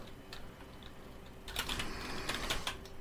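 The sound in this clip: Computer keyboard keys clatter as a search is typed, many quick, light clicks in an uneven rhythm that start halfway through after a quieter lead-in.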